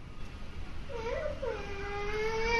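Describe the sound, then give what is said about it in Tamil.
A baby cries, frightened by a horn: a thin, wavering wail starts about a second in and stretches into a long, drawn-out cry over a low, rumbling background. “குழந்தை பசிக்கலாம் அழலம்மா, இந்த ஆரன் சத்தத்தை கேட்டு தான் குழந்தை பயப்படுறா, அதனால தான் அழறாங்க.”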